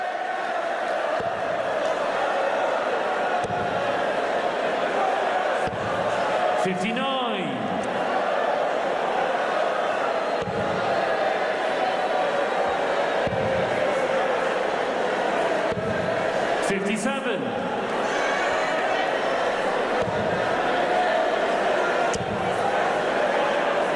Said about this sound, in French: Et le public qui chante pour Nathan Aspinall.